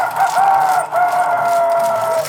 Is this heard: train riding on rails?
no